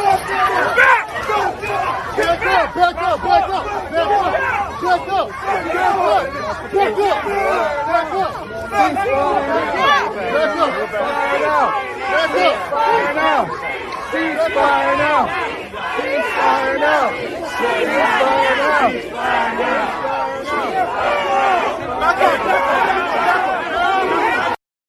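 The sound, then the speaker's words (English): Protesters shout and chant outside the Democratic National Committee office at night, a loud, dense crowd roar with overlapping raised voices and cries that stays steady for the whole stretch. “here's a little bit of some of the sounds outside the Democratic National Committee office last night by these, quote, peaceful protesters.”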